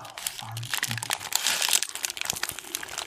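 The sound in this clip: Crinkly food packaging crackles and rustles steadily as someone eats in an ASMR-style moment, with a few crunchy bites mixed in. A voice speaks briefly near the start.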